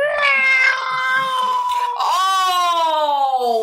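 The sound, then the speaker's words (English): A human voice imitates a blood-curdling cat scream: one long, loud, high wailing shriek that briefly breaks near the middle, then resumes and holds a strained, sustained tone to the end. “the word I used to describe it was blood curdling cat scream”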